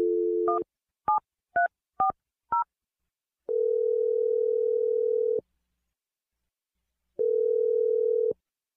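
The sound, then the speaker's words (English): A telephone number is dialed: a short steady dial tone, then five quick keypad tones at uneven intervals, followed by two long, steady, even tones separated by silence. “I'm dialing Nick's number right now.”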